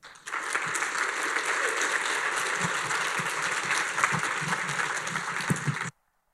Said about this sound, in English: I'm so happy to have Pastor Fred. Would you welcome him?